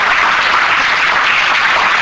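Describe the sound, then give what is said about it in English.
A church audience applauds, a dense, steady wash of clapping that holds evenly throughout. “I'll clap if you want to clap for Jesus.”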